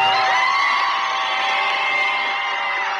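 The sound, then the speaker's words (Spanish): Loud, steady crowd cheering and whooping for Guillermo Ochoa of the Mexican national team, a continuous roar of many voices with high held cries sustained across the whole stretch. “El mejor aplauso para Guillermo Ochoa.”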